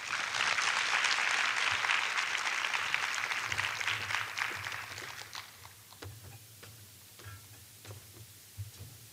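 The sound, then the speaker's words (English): Audience applause welcoming a speaker on stage, dense and loud at first, then thinning into scattered individual claps over the last few seconds. “So let's put our hands together and welcome Esther Perel.”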